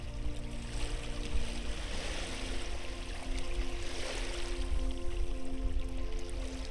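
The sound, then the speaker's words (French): Cold mountain spring water flowing into a lake in the Canadian Rockies of Alberta, a steady rushing wash that stays even and fairly soft throughout, with no voices. “Vous vous penchez pour tremper la main dans l'eau. La source de la montagne est glacée.”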